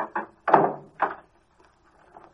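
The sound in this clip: A car trunk lid is shut and locked: a few dull thunks and clunks come in quick succession, followed by faint, quieter clicks.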